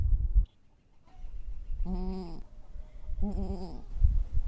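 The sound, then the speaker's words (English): A mother farm animal near giving birth calls out with a few drawn-out, wavering, harmonic-rich bleats, each lasting around a second, over a low rumbling background. “that's how you can kind of tell if they're going to give birth soon, if they start making that noise. But, that little... Yep. That's the mama noise.”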